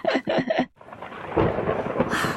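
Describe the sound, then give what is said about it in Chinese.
Thunder from an approaching storm: a few rough, rumbling bursts at the start, a brief lull, then a broad, sustained roll of thunder that stays loud to the end. “看，乌云密布啊，暴风雨马上要来了。”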